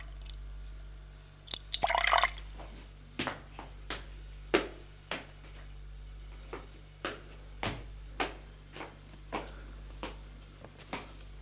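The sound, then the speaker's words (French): Drops fall into a glass of water, making many faint, sharp drips and small taps at irregular intervals, with a brief rustling burst early on against a quiet background. “un verre d'eau et y mettre quelques gouttes.”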